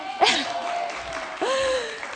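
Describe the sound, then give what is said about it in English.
Audience applause during a giveaway at a gathering: a few seconds of steady clapping with voices calling out over it. “It's more fun if y'all clap.”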